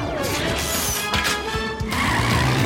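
Rescue vehicles, including a quad, race off after an out-of-control coach in a children's cartoon adventure: a loud, dense roar of engines with tire squeal and clattering impacts, sustained throughout.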